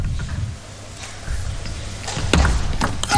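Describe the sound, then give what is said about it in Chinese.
A table tennis ball is served during a professional match, heard as a few sharp, brief ball taps over a low, steady hall background. “到了前三板，互相猜心理的时候了。看看这个发球，”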